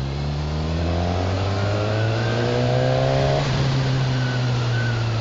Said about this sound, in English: NC750, this is my favourite bike of the moment. It's very jumpy in second gear.